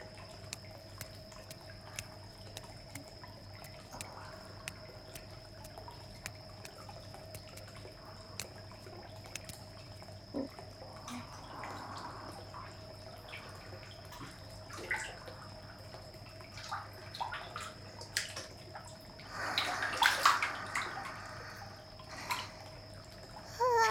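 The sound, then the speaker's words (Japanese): Hot bath water in a privately rented bath sloshes as someone gets in. Faint drips run throughout over a steady low hum, and a louder, splashy burst of moving water follows near the end. “はあ、いいお湯、体にしみる、くつろぐわ。”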